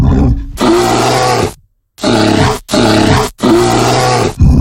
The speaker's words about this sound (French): Un ours, t'as dit qu'on pouvait le croiser en France, donc un ours brun.